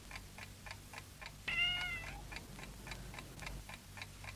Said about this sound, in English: Oh, it's the cat.